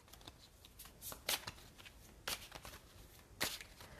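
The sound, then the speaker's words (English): Tarot cards from a Native American Tarot deck being shuffled, soft papery riffles and flicks repeating in quick bursts, with several sharper snaps, quiet and without talk. “Let's see what we get from the Native American Tarot.”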